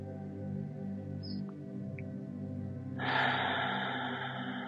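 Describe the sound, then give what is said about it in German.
A deep breath during a guided meditation: soft sustained tones play alone at first, then a long, airy inhale begins partway through and continues to the end. “Nimm hier nochmal einen tiefen Atemzug.”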